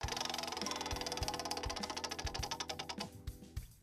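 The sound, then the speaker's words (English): A prize wheel spins and clicks: many rapid, rhythmic ratcheting clicks that spread farther apart toward the end as the wheel slows. “we're going to spin the wheel of moderately interesting things”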